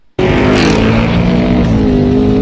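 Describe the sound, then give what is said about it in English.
Loud, sustained engine roar during a roll race against a Whipple-supercharged Ford F-150 pickup: after a brief quiet moment the noise bursts in at full strength and holds as a dense, steady, powerful drone. “Okay, well, this is a roll race.”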